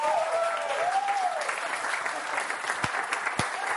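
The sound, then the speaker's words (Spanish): Applause from an audience at a church sermon, a soft, even patter of many hands clapping that holds steady for a few seconds, with a couple of sharper claps standing out near the end. “¡Denle un aplauso!”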